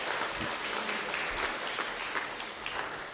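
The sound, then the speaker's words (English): An audience applauds a fine effort. The clapping is dense and continuous, holding at an even level for the whole stretch with no voices on top. “Well, can we give them a round of applause? That was a fine effort.”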